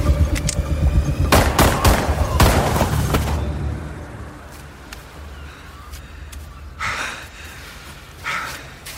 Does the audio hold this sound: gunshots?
yes

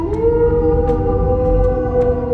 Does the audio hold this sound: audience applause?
no

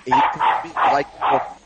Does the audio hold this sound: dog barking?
yes

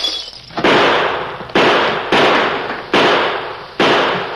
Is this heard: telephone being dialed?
no

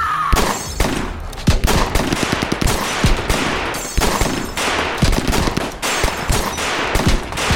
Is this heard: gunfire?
yes

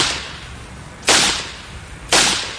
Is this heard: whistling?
no

